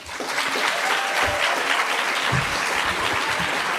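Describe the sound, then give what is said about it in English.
Audience applause welcoming guests to a comics panel: a thick, continuous clatter of many people clapping that swells quickly at the start and then stays loud and steady. “let's give a round of applause to today's coven of witches”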